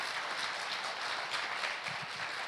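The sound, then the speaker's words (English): A church audience claps to welcome a speaker, a fairly faint, even patter of many hands with no pauses. “Should we give him a welcome? Just give him a welcome.”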